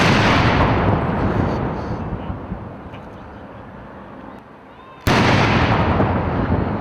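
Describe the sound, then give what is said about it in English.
Horse artillery gun salute in Hyde Park, London: a loud cannon boom whose deep rumble fades over several seconds, then a second sharp, loud blast. “That's the sound of soldiers from a horse artillery performing a gun salute in London's Hyde Park.”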